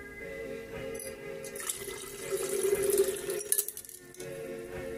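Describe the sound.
Water from several sources poured together into one vessel during a ritual, a steady trickling and splashing pour that swells louder in the middle with a few bright plinks, then settles back to a softer stream.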